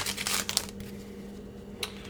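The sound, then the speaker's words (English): The foil wrapper of a 2009 Upper Deck Series 2 baseball card wax pack crinkles as it is torn open. Crisp crackling comes in short bursts at the start and once more near the end, over a low steady hum. “Next, we have another pack here. Let's open her up.”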